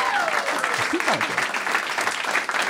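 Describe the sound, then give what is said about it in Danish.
Loud audience applause greets a guest being introduced on a Danish stage show. Dense, continuous clapping runs throughout, with voices audible over it. “Giv mig en kæmpe stor hånd.”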